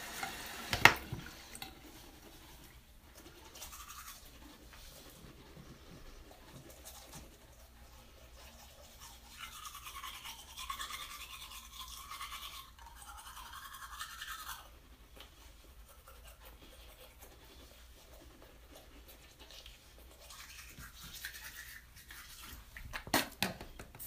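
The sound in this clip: Teeth being brushed with a two-part exfoliant and polish toothpaste: faint, continuous wet scrubbing with uneven strokes and a few brighter, harsher bursts through the middle, no talking.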